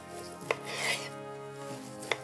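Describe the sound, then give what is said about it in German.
A sharp knife slices through juicy meat left on the bone, with two crisp clicks of the blade and a rasping drawn cut between them over a faint steady hum; no one speaks. “Den lasse ich dran und ich schneide es jetzt einfach mal so schön auf mit einem scharfen Messer.”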